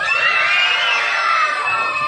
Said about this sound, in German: Wir haben so richtig geschrien, weil wir haben uns so gefreut.